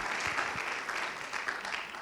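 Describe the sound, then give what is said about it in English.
A church audience applauds the fathers in a steady, unbroken wash of clapping. The applause is moderately soft and holds even throughout. “Can we just give them an applause and just let them know how much we appreciate everything that they do and all of their hard work and all of their sacrifices?”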